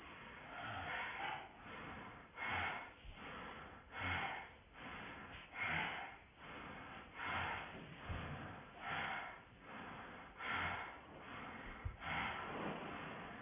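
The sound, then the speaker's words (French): Rapid, forceful bellows breaths of Bhastrika yoga breathing form a steady, rhythmic series of loud, rough pumping breaths. Each breath is about a second apart, and no voice is heard. “Et on repart pour une série de Bhastrika.”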